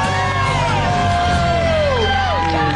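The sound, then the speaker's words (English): Audience cheering and whooping for the winning couple at the end of a reality TV show. A loud, continuous wash of yells and cheers runs throughout, with sustained tonal sounds above it. “A big round of applause for our winners,”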